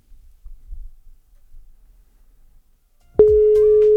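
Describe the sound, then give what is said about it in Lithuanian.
One ringback tone sounds while a phone-in contest call waits for an answer. A steady, loud, mid-pitched tone starts abruptly after a near-silent stretch of faint low rumble. “Kiek dar pipsių laukiam? Vieną.”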